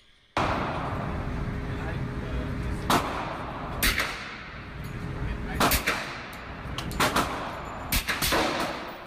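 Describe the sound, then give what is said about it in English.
Several muffled cracks from a suppressed 9mm firearm, each a short dull report spaced irregularly over a steady bed of background noise. “That's my shot. Wow. What was it? 9mm.”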